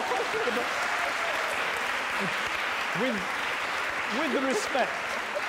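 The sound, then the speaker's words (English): Audience applause at a debate, a steady, even wash of many hands clapping with a voice talking over it at intervals. “it's a great line, this time you didn't have to ask for applause.”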